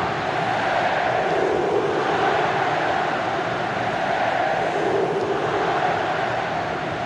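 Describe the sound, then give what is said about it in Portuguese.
Stadium crowd of Coral supporters roaring during a football match, a steady, dense wall of massed voices with no breaks, holding at one even level throughout. “a festa é total da torcida Coral. 10 minutos e 30, que barulho é esse, que coisa linda. Acompanhe o clima.”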